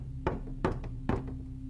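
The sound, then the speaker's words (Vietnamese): Three sharp knocks on a bedroom door, spaced a little under half a second apart, over a steady low hum. “Sau đó là tiếng gõ cửa vang lên.”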